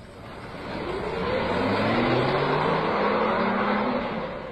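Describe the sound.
A car drives along with a steady, broad rushing hum. Engine tones climb gradually as it gathers speed, grow loudest in the middle and ease slightly toward the end.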